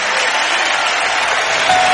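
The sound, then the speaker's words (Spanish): A church audience applauds the children, producing a bright, continuous rush of many hands clapping that holds an even, fairly loud level throughout. “¿Cuántos le pueden dar un aplauso a los niños del Señor?”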